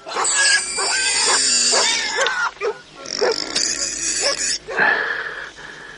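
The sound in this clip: A pig squeals in a run of high, nasal, wheezy bursts. The cries rise and break off in uneven spurts, loud and without talk.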